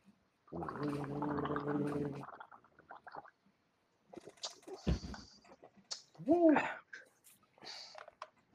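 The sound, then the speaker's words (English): People gargling a minty fresh liquid: a steady, bubbling gargle lasting about two seconds, followed by scattered short noises and faint voice-like sounds. “We're gargling.”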